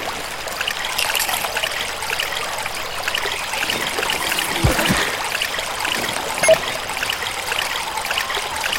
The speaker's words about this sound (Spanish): Déjame llenar mis potecitos.